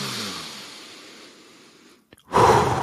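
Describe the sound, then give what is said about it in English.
A full, deep human breath: a long airy rush fades gradually over about two seconds, then after a brief pause a loud, forceful rush of breath starts again. “A full breath like that”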